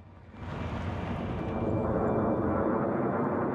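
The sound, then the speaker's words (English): An aircraft flies over a city during a military air offensive. A broad, steady engine roar swells within the first half second, then holds loud and even throughout, with no voices. “A plane flies overhead, then suddenly explosions rip across the city like huge firecrackers.”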